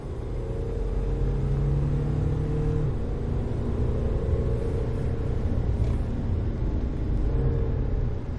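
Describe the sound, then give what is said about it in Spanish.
A car drives in pursuit of a motorbike through an industrial area, its engine a steady, low rumble with an even whir and no voices. “Jaime lo sigue desde su coche. Conduce con cara de odio.”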